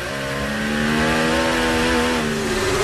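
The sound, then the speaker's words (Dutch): A Formula 1 car's rear axle spins its wheels, the engine howling loudly at high revs with a dense, steady buzzing tone that holds throughout. “Hoor die achteras van Leclerc. Alleen maar wielspin.”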